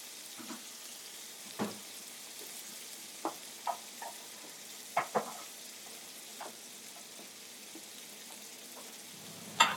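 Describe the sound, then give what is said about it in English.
Eggs sizzle softly in a pan as they are stirred and scrambled, with a steady low crackle broken by scattered light clicks and scrapes of a utensil against the pan. “I'm stirring the eggs in the center of the pan as they start to scramble up and set”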